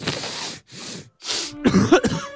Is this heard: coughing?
yes